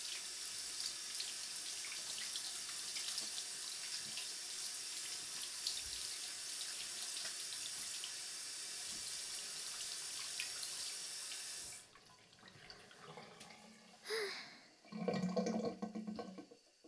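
Tap water runs into a sink while something is rinsed. A steady, loud rushing hiss lasts about twelve seconds, then stops abruptly, followed by a few brief, softer splashes and clatters.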